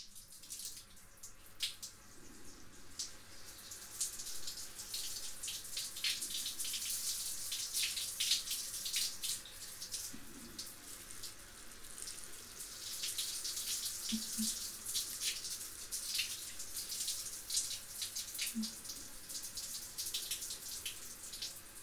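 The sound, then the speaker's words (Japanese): Running water rinses shampoo out of hair in a steady, soft hiss that stays faint and even, with a few light splashes and knocks along the way. “シャンプーの流し残しは肌荒れなどの原因にもなりますから、最初と同じようにしっかり流していきましょう。”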